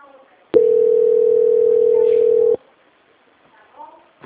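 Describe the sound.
A telephone call transfer tone sounds as one loud, steady, unbroken tone of constant pitch lasting about two seconds. Faint voices murmur briefly before and after it.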